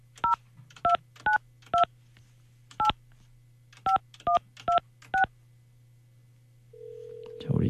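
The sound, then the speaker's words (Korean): Touch-tone keypad dialing to call a mother-in-law: nine short crisp beeps in an uneven rhythm over a low steady hum, followed by a sustained tone and a brief louder burst at the end. “이 시어머니 제가 지금 전화번호가 있으니까 시어머니 한번 제가 전화 한번 해볼게요. 전화를 받으실 수 있으려나.”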